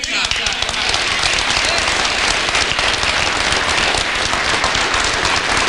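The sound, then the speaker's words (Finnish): Loud applause at a party council meeting: dense, sustained clapping from a large crowd that holds at an even level from start to finish. “Puoluevaltuuston kokouksen yhteydessä Purra moitti etenkin SDP:n puheenjohtaja Antti Lindtmania saaden suuret aplodit.”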